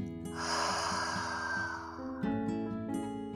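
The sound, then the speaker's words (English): A person breathes in through the nose and then takes a big breath out through the mouth during a yoga session, a long breathy rush of air over soft, steady background music. “take a breath in through your nose and a big breath out your mouth.”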